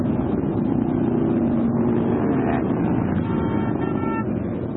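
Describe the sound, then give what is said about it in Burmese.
Loud, continuous roar of thousands of motorcycles, around 3,000 riders, circling through Washington, DC during a veterans' rally. The dense engine rumble holds steady throughout with no pauses. “ဆိုင်ကယ်စီးတဲ့သူပေါင်း3000ချီဟာ Washington DC တစ်မြို့လုံးကိုလှည့်လည်ပြီးတော့မောင်းနှင်နေတာကြောင့်မိုးချိမ့်တယ်လို့မျိုးကြားနေရတာပါ။”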